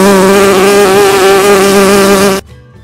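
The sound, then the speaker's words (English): A bee buzzes loudly and continuously, a rich droning hum with a slight waver in pitch, then cuts off abruptly, leaving near silence. “Bee.”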